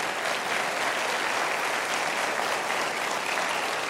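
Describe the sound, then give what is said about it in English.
Steady audience applause at a live music show honoring veterans and their families, a dense, uniform rush of many hands clapping that holds at an even level throughout. “So give yourselves a big hand.”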